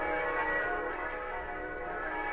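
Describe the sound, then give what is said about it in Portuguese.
Bells ring as nightfall nears, a sustained bright metallic tone rich in stacked overtones that holds steady without clearly separate strikes. No voices are heard. “Oh, vejam, os sinos estão batendo, já está quase anoitecendo.”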